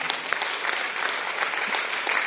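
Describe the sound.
A church audience claps together in a dense, steady round of applause that holds throughout.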